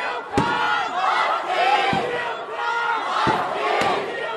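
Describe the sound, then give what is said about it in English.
UConn students cheer and yell for the Huskies at a campus watch party for a basketball game against Notre Dame. The crowd roars steadily, with a few sharp bangs breaking through. “UConn students cheered on the Huskies as they watched the game at the university's Stamford campus.”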